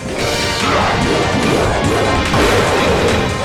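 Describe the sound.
Heavy crashing and thwacking impacts of a video game attack striking an enemy, loud and dense, running continuously for the whole few seconds with no talk.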